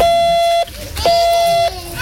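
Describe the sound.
Morse code beeps sent by radio amateurs at a lighthouse weekend in Westkapelle, where young people learn to key their own names. Two long, steady, even tones with a short gap between them, then a third tone beginning at the end.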